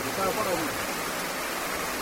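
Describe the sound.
Heavy, driving rain falls on a village of bamboo huts, a dense, steady hiss with no breaks or gaps throughout.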